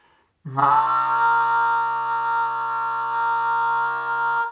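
A goose call is blown with a steady push of air from the base of the throat, giving one long, reedy, buzzing note held at an even pitch and loudness for about four seconds, with no voices.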